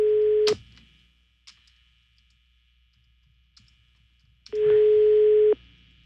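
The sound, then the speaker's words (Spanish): The telephone ringback tone of an unanswered call: a steady low tone cuts off at the start, then after about four seconds of near silence with faint line clicks, another tone sounds for about a second. “No contesta. Está sonando, pero no contesta.”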